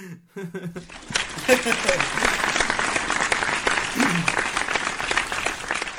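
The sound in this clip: Applause from a gathered audience: a dense, steady clatter of many hands that swells after a brief voice at the start and keeps up evenly for about five seconds.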